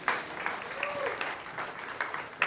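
An audience applauds to welcome the band back onto the stage, a soft, steady patter of clapping that holds at an even level for a couple of seconds, with a faint sustained tone running underneath.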